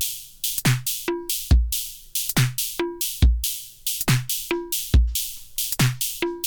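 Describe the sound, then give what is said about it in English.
Drum machine beat looping a steady pattern of punchy low kicks, bright cymbal and hi-hat hits, and a tonal cowbell swapped in for a high, dinky sound, plus a cymbal with a reshaped envelope, played alone with no voices. “Couple new sounds there. That cowbell, that was something dinky and high, and I changed it to cowbell.”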